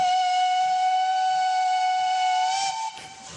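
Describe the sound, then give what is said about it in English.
Steam train whistle played back from a record: one long, steady, high whistle tone rich in harmonics that holds for nearly three seconds, then drops off in level near the end. “It's train sound.”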